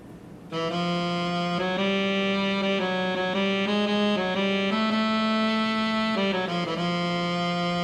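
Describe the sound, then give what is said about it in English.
A synthesized melody reconstructed from brain sensor recordings of a person listening to music: a buzzy, overtone-rich tone moving through a slow series of sustained notes in small pitch steps. It starts after a brief quiet moment and stays steady and loud. “crunched the data down, did moving averages per note duration, and came up with a melodic contour from the data that sounds like this.”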